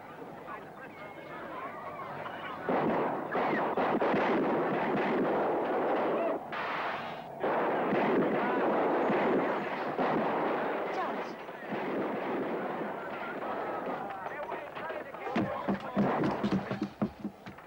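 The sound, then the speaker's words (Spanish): Heavy gunfire during a whale hunt as the whale surfaces. Many dense, rumbling shots blend into a sustained roar, with voices mixed in and sharper cracks near the end. “Atentos ahora. Disparad en cuanto salga.”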